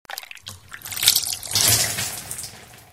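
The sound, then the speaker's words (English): Juice is poured into a cup for a child at breakfast, making a continuous splashing trickle of liquid that swells louder midway and then runs steadily on. “I can pour some juice for my little sister”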